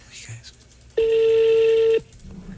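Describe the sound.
A telephone number being dialed, heard as a single steady one-second electronic tone that starts and stops abruptly, with faint voices before and after it.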